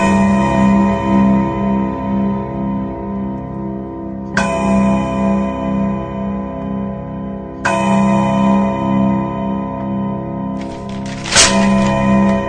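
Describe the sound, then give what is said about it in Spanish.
English mantel clock striking chimes, ringing metallic tones with rich overtones that sustain and overlap, with a few slow, evenly spaced strikes each decaying into the next. “El reloj de chimenea inglés hace oír cuatro campanadas inglesas.”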